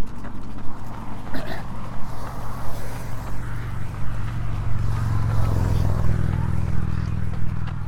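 A motor trike passing by gives a low, rumbling engine drone that swells and thickens in the second half.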